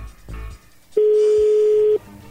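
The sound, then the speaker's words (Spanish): A telephone tone sounds as a number is called: one steady, mid-pitched beep lasting about a second, with faint, brief sounds before and after it. “Bueno, a ver, ahí le estamos marcando.”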